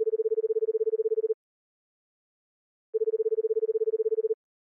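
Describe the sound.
Telephone line tone: two steady, single-pitched electronic bursts, each about a second and a half long, separated by a slightly longer silence. No voices.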